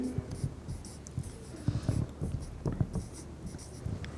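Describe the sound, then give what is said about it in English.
Writing strokes scratch across a surface in many short, irregular bursts, faint and alone, with brief pauses between strokes. “Let me write that.”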